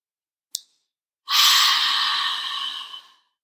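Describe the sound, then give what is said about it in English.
A single long, deep inhale, steady breathy airflow lasting close to two seconds, fairly loud and alone, preceded by one short faint click. “Okay, we're going to deep inhale on three.”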